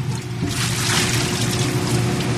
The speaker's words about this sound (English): Okay, I'm getting splashed.